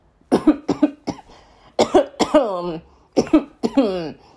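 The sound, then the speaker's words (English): A person coughs harshly and repeatedly in three quick clusters of throaty, voiced hacks, with short pauses between the bursts. “I'm sorry, y'all. I'm all coughing.”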